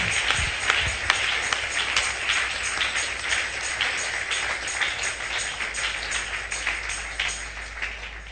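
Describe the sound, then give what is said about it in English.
An audience at a church revival service claps together, a dense, sustained wave of applause that holds steady for several seconds and eases slightly toward the end. “Are you clapping? Clap, clap, clap, clap, clap, clap.”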